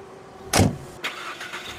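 A car being driven away: one loud, sharp burst of noise is followed by softer engine surges that rise and fade a few times. No voices are heard.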